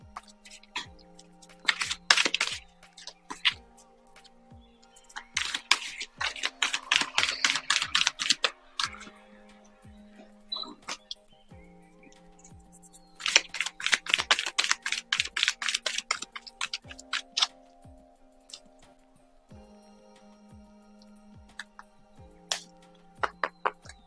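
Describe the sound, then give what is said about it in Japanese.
Oracle cards being shuffled and drawn: a few bursts of rapid, crisp riffling and flicking separated by quieter pauses, over a steady, faint ticking beat that runs throughout. No one speaks. “オラクルカード、もう一枚引かせていただきますね。”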